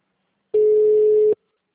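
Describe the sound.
A steady telephone tone after a dropped call: one mid-pitched beep lasting under a second, clear and alone, with no voices.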